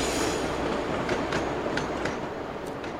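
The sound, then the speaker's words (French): A train running on rails gives a steady rumbling clatter, with a few brief high wheel squeals rising above the continuous noise. “Le train s'arrêta à une petite gare entre deux montagnes.”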